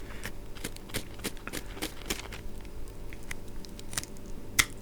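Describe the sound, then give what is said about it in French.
A scalpel cuts through the base of a fish's fins during skinning, giving a series of small, sharp clicks and snips spaced fairly evenly, faint overall, with one louder snap near the end. “Voilà, là je coupe la base des nageoires pour pouvoir continuer le dépeçage.”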